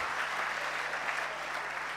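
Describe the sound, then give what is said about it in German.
A short round of applause from an audience at a live stage show, steady, dense clapping that continues without pause for the full two seconds. “Also, das ist total super, das gibt erstmal einen kleinen Applaus.”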